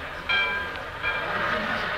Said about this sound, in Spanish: Hoy, terminado su papeleo, se marchó de regreso el tío Adolfo. Fui a despedirlo a la estación.